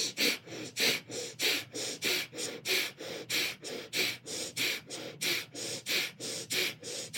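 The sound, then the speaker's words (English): Breath of fire: rapid, rhythmic breathing through the nose while pumping the navel. Many sharp, even exhalations come at a steady quick pace of roughly two per second, each a breathy, hissing puff, with no talking. “you're going to breathe the breath of fire through your nose, pumping your navel. It's going to sound like this.”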